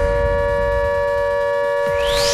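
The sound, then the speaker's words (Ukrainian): A steady air-raid siren from an automatic alert system holds one constant pitch alone, with a rising sweep entering near the end. “Так, друзі, ось таке дуже своєчасне нагадування від нашої автоматичної системи оповіщення.”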